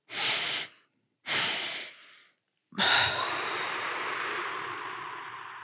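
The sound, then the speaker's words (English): Deliberate breathing: two deep inhales through the nose, each a short breathy burst, then one long, full exhale through the mouth that slowly fades as the lungs empty. No one speaks. “You do two deep inhales through your nose, followed by a full exhale through your mouth to empty your lungs.”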